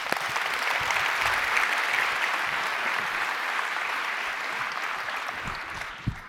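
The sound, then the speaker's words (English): Applause from an audience greeting a contest winner called up to the front: dense, steady clapping sustained for about six seconds, with one sharper clap standing out near the end. “Let's give him a hand.”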